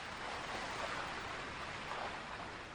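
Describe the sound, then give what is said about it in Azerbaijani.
Roaring waves of the Araz river, a dense, steady rush of churning water that holds an even loudness throughout, with no voices. “Arazın gür dalğası.”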